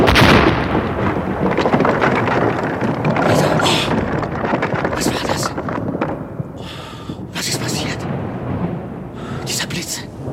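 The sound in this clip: Thunder from a lightning strike drawn down a kite's wire during a thunderstorm rolls as a loud, continuous roar mixed with rushing wind and rain, holding steady across the whole stretch.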